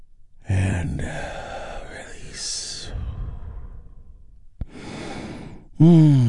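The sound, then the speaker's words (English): A big, deep breath is taken during a guided relaxation, a long breathy rush lasting a few seconds. After a quieter stretch comes another breathy exhale, and a voice begins speaking at the very end. “we do that by taking a big, deep, healing breath all together”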